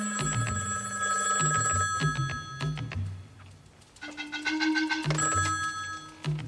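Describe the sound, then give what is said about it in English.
A telephone wired to the wall rings with a bright metallic bell trill, repeating in regular bursts with short gaps between them. No one speaks over the ringing. “A few seconds later, Dougie gets a call that his parents got in a car accident.”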